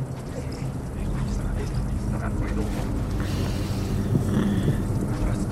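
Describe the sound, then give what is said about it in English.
Strong wind blows against a tent in a continuous, dense roaring rush over a low rumble, steady and loud throughout. “God, this wind is so strong. It's scary. The tent will hold up.”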